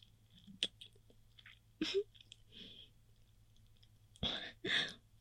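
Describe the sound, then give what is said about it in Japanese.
Wet mouth clicks and soft smacking as food is sucked and eaten, a few short bursts scattered between quiet gaps over a low steady hum. “ちょっとずつ食べちゃってるけど、いいかな？いいのかな？ こう、口に入れて、チュポチュポってすると食べちゃう。”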